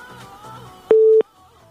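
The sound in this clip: A telephone tone sounds on a call-in line where the call fails to connect: one short, steady, mid-pitched beep, sharp at both ends, between quieter stretches of low background sound.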